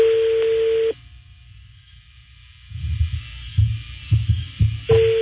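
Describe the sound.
A steady telephone line tone sounds, cuts off, then a run of low, uneven thumping pulses plays as a number is redialed, before the tone returns briefly at the end.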